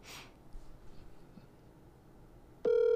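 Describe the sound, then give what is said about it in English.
A telephone tone from dialing in a call cuts in abruptly near the end, loud and steady, after a quiet stretch of faint shuffling noise. “I'm dialing him in. All right. Right now.”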